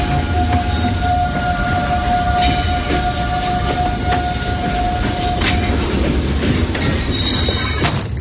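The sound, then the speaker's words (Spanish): A Trans-Siberian train runs on rails across Russia: a loud, steady rumble with clickety-clack wheel clicks, a sustained metallic squeal for much of the run, and sharper high-pitched wheel squeals toward the end. “Este sonido es el del tren, porque todo comienza en este tren.”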